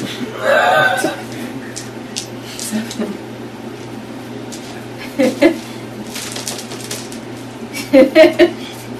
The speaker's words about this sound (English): So, 13. Roll that number of dice.